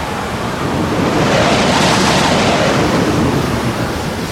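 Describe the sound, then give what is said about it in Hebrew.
A mighty wind begins blowing over the sea, a loud, dense rushing roar that swells toward the middle and holds steady, with a surf-like wash and no voices. “רוח אדירה החלה לנשוב.”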